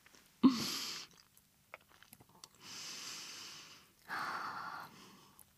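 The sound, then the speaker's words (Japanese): Three deep breaths taken on a lemon hill, each a long, breathy rush of air. The first is the loudest and starts abruptly, the other two are softer and evenly spaced, with faint small noises between them. “今すいません、レモンの丘で深呼吸してますけど”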